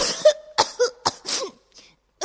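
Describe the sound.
A voice acts out the harsh, throaty coughing of a sick person shaking with chills: a quick run of rough, voiced coughs, then a faint one after a short pause and a final burst at the end.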